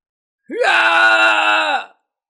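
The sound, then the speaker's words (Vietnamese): A man's anguished wailing scream: one loud, sustained cry that rises sharply at the start, holds a steady strained pitch for over a second, then breaks off abruptly. “Khương Hoài An kêu thảm thiết, ánh mắt lộ ra thần sắc tuyệt vọng.”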